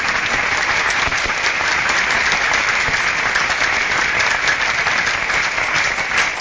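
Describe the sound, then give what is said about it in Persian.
An audience at a religious celebration claps hard. Dense, loud, continuous clapping holds steady without a break. “عشق امام جواد داری، دست تو بالا کن، کف محکم بزن.”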